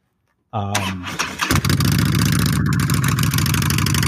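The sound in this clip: A motorcycle engine starts after a brief silence while it is being warmed up. A whirring, stuttering start is followed by the engine catching into a loud, steady, throbbing idle that runs evenly to the end.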